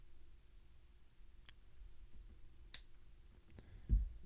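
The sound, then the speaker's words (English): Wire cutters snip the centre lead of a hastily built round-wire vape coil, giving a few faint, sharp clicks spread apart, one brighter snap near the middle and a dull knock at the end. “we're going to put this on a regulated device to dry fire it. I'm not going to dry fire hastily built round wire on a mech. Now I'm going to try to get in here and cut this center lead.”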